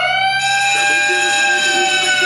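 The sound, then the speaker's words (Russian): A siren blares during an exam in a classroom: a loud, continuous, steady high tone with strong layered harmonics that sounds throughout without a break. “И прям как по заказу, как только Эми Адамс начинает раздавать тесты, раздается сирена.”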